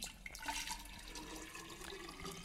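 Water pours from a pitcher into a jar in a faint, steady, continuous splash and trickle that runs without a break.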